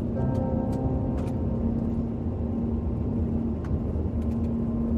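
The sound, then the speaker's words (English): A car driving along Alison Road gives a steady low engine and road rumble with a faint constant hum running through it, unbroken and without talk. “live from Alison Road, where I'm driving right now.”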